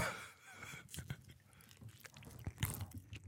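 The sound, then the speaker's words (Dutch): Faint, moist chewing of a mouthful of banana: a few soft, irregular squelches and smacks of the mouth, quiet and close, without speech. “Dit is het moment waarop ik een banaan in mijn gezicht dus druk. Ik ga even een banaan eten.”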